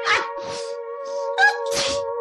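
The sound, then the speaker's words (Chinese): A cat sneezes hard into a mouse hole, giving several sharp, breathy bursts over steady sustained tones. “拼命地将喷嚏喷进洞里。”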